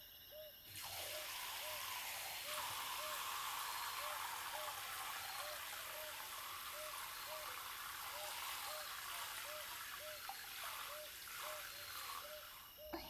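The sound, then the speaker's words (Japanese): Hot water runs while hair is being rinsed, a faint, steady hiss of flowing water. It starts after a brief pause and continues almost unbroken to the end. “はい、では一回お湯で流しますね。”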